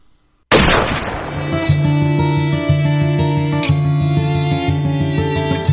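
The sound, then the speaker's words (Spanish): A firing squad's rifle volley bursts out sharply after a moment of silence, then gives way to sustained music with a low note repeating at a steady pulse. “¡Pelotón! ¡Apunten! ¡Fuego!”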